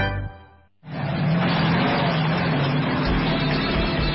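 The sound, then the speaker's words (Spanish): A car engine revs hard in an engine-oil advert about motors pushed to extreme demands. After a short tonal hum and a brief gap, a loud, steady, broad roar takes over and holds to the end, with a deeper rumble swelling late. “Los motores son sometidos a exigencias extremas.”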